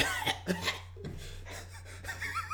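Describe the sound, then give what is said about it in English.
Coughing from a person with a bite of food stuck in the throat: a few short, rough bursts followed by breathy, strained sounds, fairly faint throughout. “Oh, I just got something stuck in my throat.”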